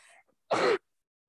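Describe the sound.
A single sneeze, a sharp, short burst of breathy noise after a brief faint sound, then silence.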